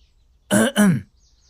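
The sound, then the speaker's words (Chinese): A man clears his throat in two quick, gruff bursts back to back, loud against an otherwise quiet background. “此人清了清嗓子，慢慢开了腔。”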